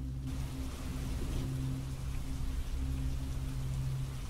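Rain falling during a windy storm, a steady, dense hiss of drops that stays even in loudness throughout, with a low, faint hum underneath and no voices.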